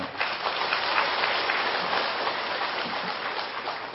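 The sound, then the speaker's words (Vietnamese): An audience at a Vietnamese Buddhist dharma lecture applauds. The clapping is steady and muffled, a continuous dense patter lasting the whole few seconds with no speech over it. “Chắc vị vỗ tay đặng buộc tôi phải trả đó, đúng không?”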